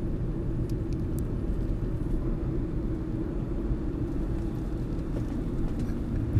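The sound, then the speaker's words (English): Steady low engine and road rumble from inside a car turning off a street and heading into a parking structure. The drone is continuous and even throughout, with no voices. “I am in the Podketeer Mobile Recording Studio, and I have just turned from Ball Road onto Disney Drive, and I am headed into the parking structure.”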